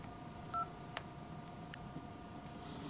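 Telephone keypad tones as a number is dialed: a few short, separate beeps over a steady low hum and faint hiss.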